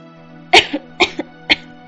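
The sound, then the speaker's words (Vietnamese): Intermittent dry coughing comes from someone seriously ill in a room: three sharp, loud coughs about half a second apart, each followed by a smaller catch, over a faint steady hum. “Đột nhiên trong phòng vang lên tiếng ho khan đứt quãng.”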